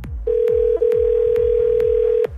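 A steady telephone line tone plays while a number is dialed for an on-air radio call. It holds one even pitch with a brief break near the start, over faint low rumbling and soft regular clicks.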